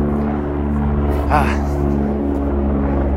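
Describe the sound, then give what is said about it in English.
An airplane flying overhead gives a steady, low, droning engine hum with even tonal layers. The sound holds at a constant, fairly loud level for the whole stretch. “Sorry about the plane.”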